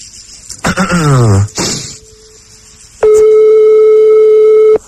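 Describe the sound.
Telephone ringing tone on a radio call-in line, heard as a loud, steady electronic tone held to the end after a short sweeping sound and a faint hum.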